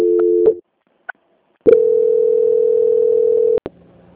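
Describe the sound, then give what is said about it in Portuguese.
Telephone line tones play while a call is transferred: a short steady tone, a pause with two faint blips, then a long unbroken steady tone for about two seconds, ending in two sharp clicks. “Peço que aguarde em linha que vou transferir o contato para o controle de qualidade que dará continuidade à sua contratação. Dona Edna, só um momento, por favor. Ok. Transferência.”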